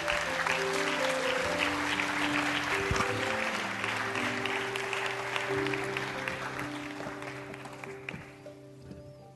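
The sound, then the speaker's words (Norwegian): An audience applauds to welcome the evening's guest, a state secretary at a talk event. Dense, steady clapping holds for several seconds, then thins and fades toward the end. “Ta vel imot kveldens gjest, Hans Olav Syversen. Gi han en skikkelig god applaus.”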